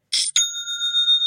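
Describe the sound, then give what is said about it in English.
Online store sale notification chime: a short, bright noisy burst, then a clear high bell-like ring that sustains and gently pulses as it fades, heard alone. “Whenever I hear that sound, things just seem to get a little better. It just makes me smile. It's the sound of another sale on Shopify”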